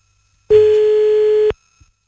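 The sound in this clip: A telephone tone sounds after a call gets cut off: one steady, mid-pitched beep that holds for about a second and then stops abruptly, leaving silence.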